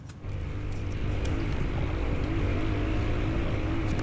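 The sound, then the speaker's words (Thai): Engine of an enduro motorcycle ridden fast along a narrow track during an enduro race at Pak Chong, a loud, steady, buzzing drone with strong low harmonics that holds without a break. “ความเร็วสูงนะคะนี่คือที่ขี่มาตามทางมันเป็นทางเล็กๆแบบนี้ค่ะมันเป็นรถจักรยานยนต์วิบากนี่แหละ”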